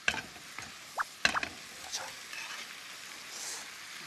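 Chives and mushrooms stir-fried in a pan: a steady frying sizzle with a few scraping, clattering stirs near the start that fade into a softer hiss.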